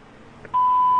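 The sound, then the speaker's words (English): An answering machine beep: a single steady, high-pitched electronic tone that starts abruptly about halfway through and holds loudly to the end, after a faint low background hiss. “Please wait for the beep.”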